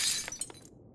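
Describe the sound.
A glass Coke bottle smashes with a sharp, bright shatter, followed by a few tinkling shards that quickly die away into silence.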